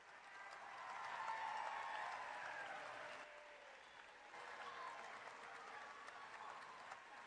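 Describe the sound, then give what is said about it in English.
Audience applause welcomes a bishop at a diocesan gathering, a steady, fairly faint wash of clapping that swells slightly early on and holds for about seven seconds. “So everyone put your hands together, please, and welcome the wonderful bishop, who is, yes, still our bishop, Bishop David Kagan.”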